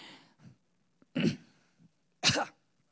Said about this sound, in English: Got something in my throat.